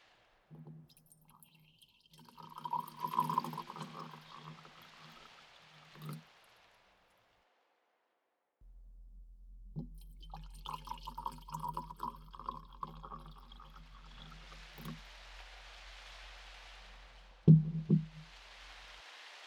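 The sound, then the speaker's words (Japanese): Hot water, boiled from a well on shrine grounds, is poured for tea in two trickling, splashing stretches separated by a quiet pause, with a short louder burst near the end. “このお湯は境内の井戸から汲み上げたお水を沸かしたものです。”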